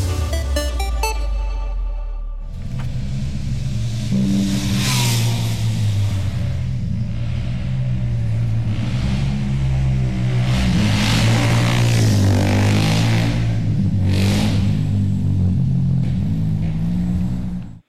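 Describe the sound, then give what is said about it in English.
Four scrambler motorbikes speed up and down a street in Dublin's north inner city. Their engines make a loud, continuous roar and rev, with the pitch wavering up and down throughout. “That was the sound of four scramblers speeding up and down Sean McDermott Street in Dublin's north inner city just last week.”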